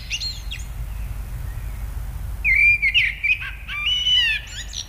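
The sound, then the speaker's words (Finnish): A common blackbird sings in the early morning hours. A few brief chirps come first, then after a pause a run of clear, fluting whistled phrases, set against a low rumbling background. “hän sitten pysähtyi kuuntelemaan mustarastasta ihaillen ja ajatteli, että siinä sitä on lintumaailman laulaja mestari, todellinen taiteilija.”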